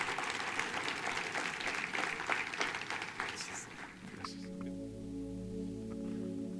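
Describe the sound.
Church audience applauding a guest speaker as he is welcomed, a dense, even patter of many hands that carries steadily for about four seconds before thinning out.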